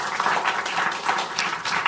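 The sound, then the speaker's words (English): Audience applause for a panel at a discussion event: dense, continuous clapping at a moderate, even level, without pauses, for the whole stretch. “Thank you for your panel. Let's give them a round of applause.”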